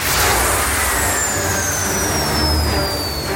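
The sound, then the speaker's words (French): A spaceship jumping to light speed: a loud, steady, dense roar like a jet or engine, with a thin high whine slowly gliding downward across it. No voices. “Alors c'est parti pour un voyage intergalactique, vitesse lumière, direction le vaisseau de la Fédération.”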